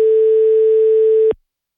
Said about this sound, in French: On appelle à Bastia.